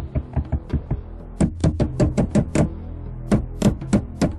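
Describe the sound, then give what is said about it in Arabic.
Knocking on a door: many sharp raps in uneven bursts. A few softer taps come first, then a faster, louder series, a brief pause, and a few more firm knocks. “أبصر مين بدقدق على الباب؟”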